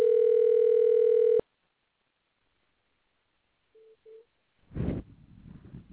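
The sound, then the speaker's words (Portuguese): A loud, steady telephone dial tone holds for over a second, then cuts off into silence. Two short, quiet beeps and a burst of line noise follow while a call is being placed. “Vamos tentar fazer a ligação agora com o nosso irmão.”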